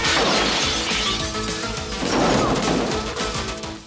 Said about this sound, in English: The gunman jumps through a window.